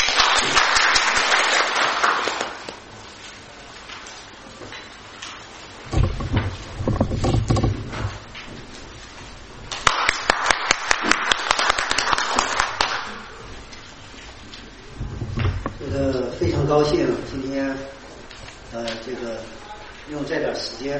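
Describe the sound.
Audience applause welcoming a speaker at an environmental science conference, loud bursts of clapping at the start and again midway, with a person talking in between and afterward.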